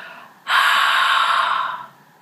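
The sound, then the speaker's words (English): A single long open-mouthed exhale, as if fogging up a mirror: a steady, breathy hiss that starts abruptly, holds for more than a second, and tapers off softly. “And when you exhale, imagine that you're fogging up a mirror. So with your mouth open, try that.”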